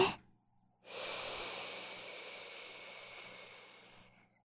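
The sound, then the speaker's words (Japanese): A single slow, deep inhale during a guided breathing exercise: a steady, airy hiss that swells quickly, holds for about three seconds and then fades, heard alone without talk. “そのままもう一回、深呼吸をしよっか。吸って。”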